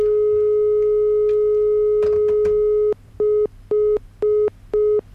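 A telephone busy signal sounds when calling a listener. A steady tone runs unbroken at first, a few clicks fall in the middle, and then four short, evenly spaced beeps follow, with no talking.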